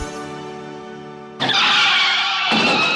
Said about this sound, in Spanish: Este es el sonido de un accidente de tráfico.